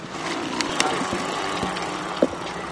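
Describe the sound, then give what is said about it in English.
A student-built moon buggy with two seatbelted riders rolls off down a walkway, giving a steady rumbling wheel noise broken by a few light clicks and knocks. “Heads turned as the moon buggy took off down a walkway.”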